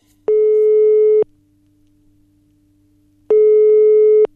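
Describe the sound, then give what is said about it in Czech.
Telephone ringing tone as a call is placed: two long, steady electronic beeps about a second each, separated by a pause of roughly two seconds, over a faint low hum. “Takže volám Vaškovi.”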